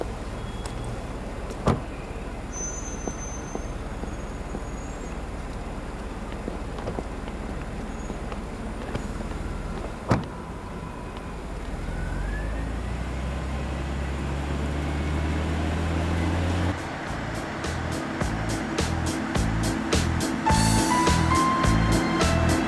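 A black car drives around Moscow, its engine a steady low hum broken by a couple of sharp clicks early on. Later the engine note rises in pitch and the sound grows louder, with a rhythmic pulsing texture toward the end.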